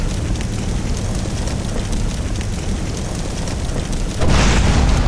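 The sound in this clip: Loud video game combat sounds from a sniper shot and explosion: a dense, continuous roaring rumble that jumps to a sudden, louder burst near the end.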